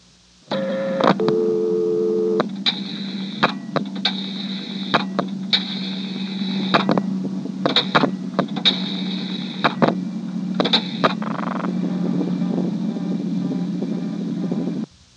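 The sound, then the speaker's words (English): A telephone is dialed through a director exchange. A low steady line hum is broken by many sharp clicks and short, higher-pitched bursts in an uneven sequence, and the hum cuts off at the end. “I'm now going to dial 670 to drop the director, and then 182.”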